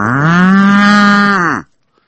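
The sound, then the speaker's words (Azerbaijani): A cow gives one long, loud, low moo as it calls its calf. The rich, steady tone lasts about a second and a half, then dips slightly in pitch before cutting off into silence. “Anası oradan çağırır. İnək.”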